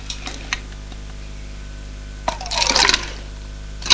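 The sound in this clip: Orange juice poured from a bottle into glasses: a brief, bright trickle of liquid in the middle, with a few light clicks before and after over a steady low hum.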